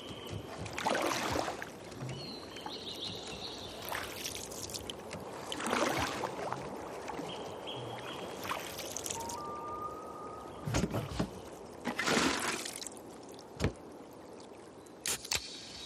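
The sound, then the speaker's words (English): A canoe sits on the water, its occupant holding a beer rather than a paddle. Faint lapping water carries a few soft splashes and knocks at irregular intervals, with brief trickling sounds between them. “made to chill in a canoe holding a beer instead of a paddle.”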